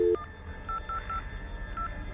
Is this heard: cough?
no